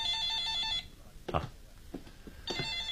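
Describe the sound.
A telephone rings in two bursts, one at the start and another near the end, with a few short, soft sounds in between.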